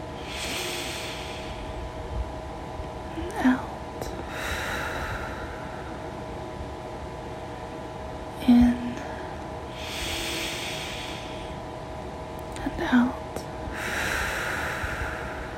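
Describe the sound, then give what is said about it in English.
Slow, deep breaths are drawn in, a few long, airy inhalations spaced evenly apart, with brief sharp nasal snorts between them over a faint steady hum. “as I start to take deep breaths in”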